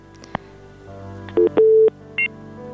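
Touch-tone telephone dialing as a call is placed: a few short keypress beeps and one longer tone over a low steady hum, preceded by a faint click.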